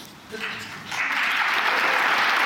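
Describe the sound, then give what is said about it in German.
Strong, sustained applause from a conference audience in Munich, given at the farewell of the outgoing conference chair. It swells up after a brief voice at the start and then holds as a dense, even roar of clapping. “Heusgen verabschiedete sich heute in München unter Tränen und mit starkem Applaus.”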